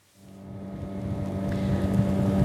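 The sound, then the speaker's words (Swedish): Motorboat engine drones while travelling on the Patía River in southern Colombia, a steady low hum with water rush that gradually grows louder and fuller, with no talking. “Nu åker jag på floden Patía i södra Colombia, i nära kuststaden Tumaco.”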